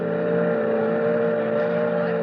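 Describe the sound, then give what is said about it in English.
A boat motor drones on a boat excursion to the Statue of Liberty, a steady low hum with a buzzing harmonic edge that holds even throughout, with no voices. “nice riding out on the boat, ain't it”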